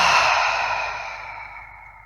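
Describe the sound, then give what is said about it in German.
A long, open-mouthed exhale during a guided breathing exercise: one sustained, breathy sigh that starts strong and slowly fades away. “Durch die Nase wieder ein und durch den geöffneten Mund wieder alles loslassen.”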